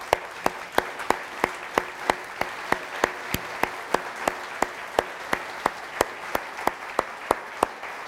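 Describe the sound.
An audience claps steadily in unison to welcome a guest and his wife, with many even, crisp claps at a regular quick pace over a low background hiss.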